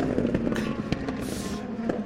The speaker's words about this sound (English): Those popping and banging P2s are great with that Gibson V8.